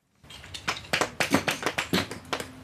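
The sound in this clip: A hammer strikes small limestone slabs to split them at a quarry fossil dig, producing many sharp, quick taps in a steady, uneven rhythm.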